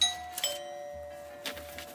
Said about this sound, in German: Ich klingel jetzt mal eben.